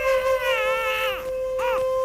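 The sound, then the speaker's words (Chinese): An infant cries in a prison cell, a cold and hungry child giving a long harmonic wail that drops in pitch, then a shorter arched cry, with a steady tone beneath. “又从另外的监牢传出婴儿的啼哭声。”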